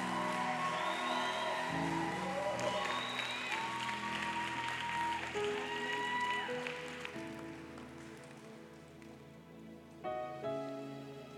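A church audience applauds to welcome the pastor at a revival service: sustained, dense clapping runs over tonal sounds throughout, easing slightly toward the end.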